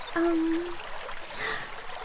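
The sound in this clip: Shower water running in a steady soft trickle and stream, holding a fairly even level for about two seconds with no talk over it.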